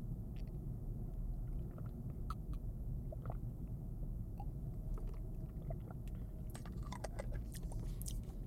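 Chewing on a sweet whose taste recalls gingerbread-heart filling: faint, soft mouth sounds with scattered small wet clicks over a steady low hum, with no talk.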